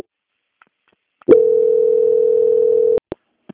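A steady single-pitch telephone line tone during a call transfer to a Banco Santander quality-control line, holding evenly for under two seconds, preceded by a faint click and followed by a few sharp clicks, with no talk.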